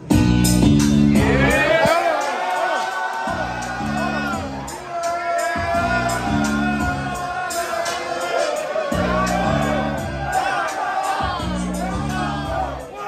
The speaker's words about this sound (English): Welcome to the Mike Quirk Podcast. Now give me my theme music.